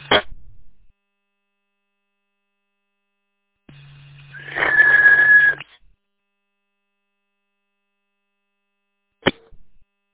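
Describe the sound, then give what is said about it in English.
A steady whistle tone lasting about a second, sounding with a low hum and a noisy burst, between short sharp clicks at the start and end. “It's working. Stop the whistle.”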